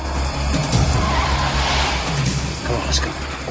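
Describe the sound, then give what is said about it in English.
A truck hurtling along a road makes a loud, continuous engine roar with a squeal of tires, holding strong throughout. “a truck turns on its lights and hurtles towards him from a darkened garage.”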